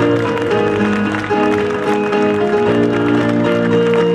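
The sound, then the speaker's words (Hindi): An audience claps loudly in praise of God, with dense, continuous clapping blended with loud, sustained music. “सब जन जितनी ताकत आपके पास है ताइयों के साथ उसकी तारीफ करो सब जन।”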